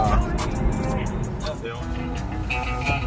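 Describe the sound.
Car engine and road noise from a racing video game played with a steering wheel and pedals, a steady rumble that runs under people talking.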